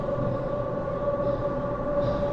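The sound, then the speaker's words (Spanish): A train slowing to a stop gives a steady, loud rumble with a constant tonal whine running through it. No voices are heard over the even mechanical drone. “El tren bajó la velocidad hasta que hizo alto total, entonces se abrieron las puertas.”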